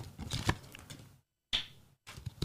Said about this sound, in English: Card flicks.